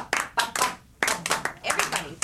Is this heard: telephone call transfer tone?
no